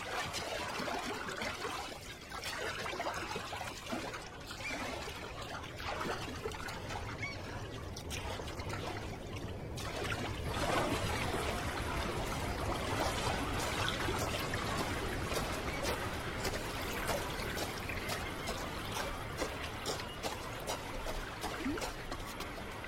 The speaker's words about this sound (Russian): прыгнула в воду и поплыла к берегу